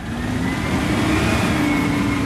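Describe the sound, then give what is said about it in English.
Garbage truck engine rumbling steadily as it trundles along a residential street on a Friday morning trash collection day, a continuous low drone with a faint mid-pitched whine running through it, with no voices. “I'm standing on the curb in front of my home, half asleep, watching the garbage truck trundle towards me.”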